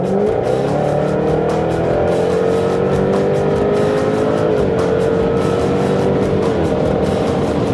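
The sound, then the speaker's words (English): A 495-horsepower V8 race car roars loudly as it accelerates down the north straight of a 1.9-mile twisty track toward 140 mph, heard from inside the car. The engine note climbs steadily, dips briefly at a gear shift, then climbs again. “what you hear is 495 horsepower V8 that's pushing us up to 140 miles an hour on that straight.”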